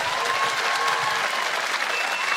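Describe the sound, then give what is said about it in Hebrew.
An audience at a festival concert evening applauds, producing steady, dense clapping that holds at an even, fairly loud level throughout without a break. “עוד כפיים, עוד כפיים!”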